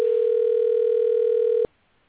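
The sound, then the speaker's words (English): A telephone dial tone plays as a loud, steady, unbroken hum for about a second and a half, then cuts off abruptly into near silence. “dialing.”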